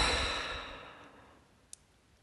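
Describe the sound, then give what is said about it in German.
A deep exhale through the mouth during a guided breathing exercise, a soft, airy rush of breath that is strongest at the start and gradually fades away to near silence. “Tief durch die Nase einatmen, Schultern heben. Durch den Mund ausatmen und die Schultern sinken lassen.”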